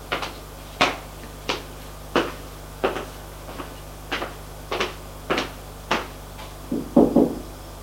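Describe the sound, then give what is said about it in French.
Knocking on a bedroom door: a long series of sharp single knocks at a steady, evenly spaced rhythm, ending in a quicker cluster of taps, with no voices. “Et il va frapper à la chambre de son ami.”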